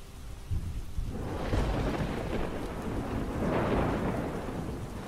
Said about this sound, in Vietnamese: Ngoài trời lúc này cơn mưa lại càng thêm dữ dội. Đột nhiên một tia sét từ trên tầng không giáng thẳng xuống.